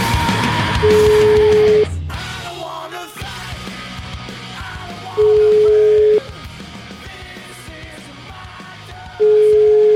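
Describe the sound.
Ringing tone heard while placing a telephone call: three long, steady mid-pitched beeps spaced about four seconds apart over a faint, continuous background sound.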